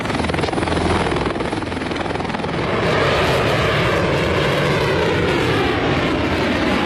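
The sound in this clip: Military shipborne helicopters and aircraft fly in formation over a naval fleet review, making a loud, continuous rotor and engine roar that swells slightly midway and then holds steady, with no voices.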